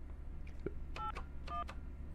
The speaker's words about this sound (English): let me turn that down for a second and dial her number